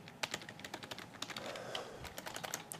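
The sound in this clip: Rapid typing of an email address on a computer keyboard: many crisp keystrokes in quick, uneven succession, with no voices.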